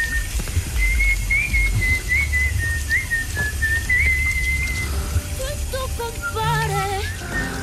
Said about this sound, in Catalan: No xiula gaire bé. Canta millor que xiula